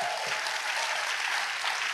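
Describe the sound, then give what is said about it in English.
An audience clapping at a church service, dense and steady applause from many hands forming a continuous crackling wash at an even, fairly loud level throughout, with no voices standing out. “Somebody give the Lord a clap.”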